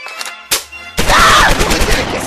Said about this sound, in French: celui qui se trompe se prendra une rafale de mitrailleuse dans les dents